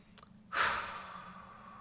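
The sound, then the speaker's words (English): A deep breath: one long, breathy rush that starts abruptly about half a second in, peaks, then slowly fades for more than a second, with no talk. “Taking a deep breath”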